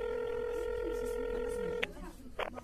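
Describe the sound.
Telephone tones from someone dialing a call: a steady, multi-pitched tone holds for nearly two seconds, then breaks into a few short, bright dial beeps with light clicks.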